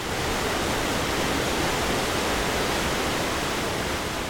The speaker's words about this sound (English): That is the sound of a waterfall that cascades into the river down a tumble of granite boulders.